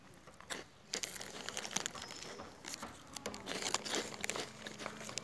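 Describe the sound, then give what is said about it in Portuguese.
A biscuit package crinkles and rustles while biscuits are crunched and chewed, with many irregular crackling bursts of plastic and crisp bites at a quiet level. “Esse pacote de biscoito não vai acabar. Porque eu tô comendo e falando ao mesmo tempo.”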